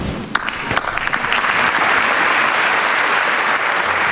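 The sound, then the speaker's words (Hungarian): Applause closing Pope Francis's general audience: a few scattered claps quickly swell into a loud, dense, sustained ovation from a large crowd that holds steady to the end. “ezzel a tapsviharral ér véget a mai napon is Ferenc pápa általános kihallgatása.”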